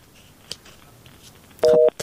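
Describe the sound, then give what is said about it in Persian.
Telephone busy tone after a caller's line drops: a single short, loud steady beep near the end, preceded by faint clicks. “فکر کنم تماسشان قطع شد.”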